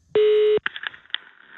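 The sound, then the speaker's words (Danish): A telephone number being dialed: a loud, steady electronic tone, then a few short, quieter beeps in quick succession. “Og vi ringer til Tista for at sige tillykke, kan jeg sige.”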